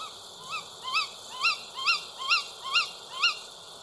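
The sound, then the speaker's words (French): Tawny owl calling in the distance: seven short, sharp, whistled notes that swoop in pitch, repeated in a quick, even rhythm over a faint, steady background hiss. “Est-ce le vent ou la chouettulotte qui se joue de nous? Ah, et ça, c'est son cri. Vous l'avez entendu?”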